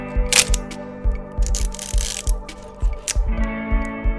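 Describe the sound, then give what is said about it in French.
A film camera is focused and aimed, then its shutter is pressed, producing many crisp ratcheting mechanical clicks over a steady run of low, regular ticks. “mais aussi une certaine maîtrise technique en fonction de l'appareil que l'on utilise. On fait la mise au point, on vise et on appuie.”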